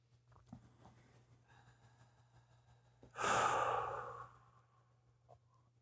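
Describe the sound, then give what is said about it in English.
A single deep breath, drawn and let out as a long, breathy sigh, rises suddenly out of quiet background and fades over about a second, with no talking. “Take a real deep breath and a breath out.”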